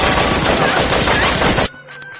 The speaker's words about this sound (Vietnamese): Những tiếng nổ làm rung chuyển các ô cửa kính. Steve tiến lên một bước, hai tay vung lên như một người mù, rồi gục xuống khi Max vẫn tiếp tục bắn.